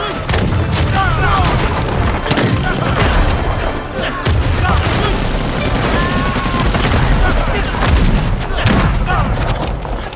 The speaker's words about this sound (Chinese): 给我集中火力打那边！